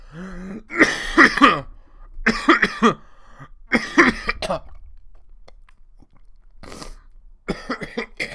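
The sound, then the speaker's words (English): A person coughs repeatedly, rough throaty bursts and throat clearing coming in several separate fits with short quiet gaps between them. “I didn't really mean to just cough all up in your ear right there like that.”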